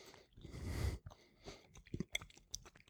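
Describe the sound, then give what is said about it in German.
Biting into and chewing a dry, spicy central Italian sausage with a very thin skin: faint, crumbly crunches and moist mouth sounds in a few irregular bursts. “Das heißt, wenn man die abbeißt, dann fallen eher so Stückchen ab, als dass man das als Masse zu sich. Oh, die ist aber ordentlich scharf.”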